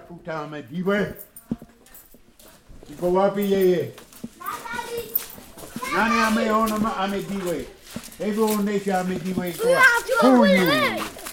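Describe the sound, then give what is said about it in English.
Children's voices fill a community center that serves as a school, library, YMCA and orphanage, with lively, high-pitched chatter and calls coming in several bursts and short pauses between them. “Inside, you can usually find Pete fussing with the kids.”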